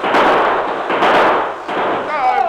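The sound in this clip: Loud gunfire in a shootout, the overlapping reports merging into continuous booming noise in about three surges, with a thin whistling tone at the end.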